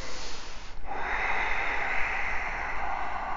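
A long, deep breath taken during a yoga exercise, heard as a steady airy hiss that starts after a brief pause and lasts several seconds, loud and alone.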